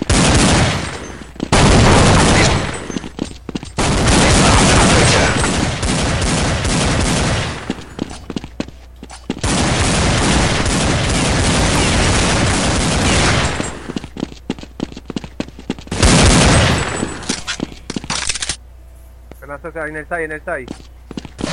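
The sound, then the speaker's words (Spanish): Heavy gunfire as shooters fire at a breach, loud sustained bursts of rapid machine-gun volleys in a few long stretches separated by brief pauses, dense and crackling throughout. “Disparad en la brecha. Disparad.”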